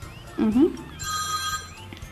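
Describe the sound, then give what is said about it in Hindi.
A telephone ringtone rings out as a steady, bright electronic tone lasting about half a second, following a brief burst of voice, with a low hum underneath. “अब किसका phone है, ये कौन सा number है?”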